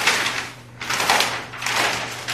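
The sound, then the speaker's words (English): Scratchy handwriting strokes, a pen rasping across a surface in a few continuous bursts separated by short pauses, fairly steady in loudness over a faint low hum. “So I'll just write that down.”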